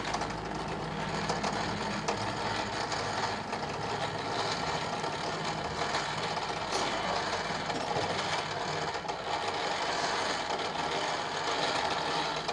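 A hand-cranked rope-making machine twists strands into rope, turned at an even speed. It gives a steady, continuous mechanical whirring rattle with no pauses.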